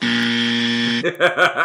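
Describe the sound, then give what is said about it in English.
A harsh, flat game buzzer drones loudly for about a second and then cuts off as people begin talking. “the buzzer sounded and the game is over”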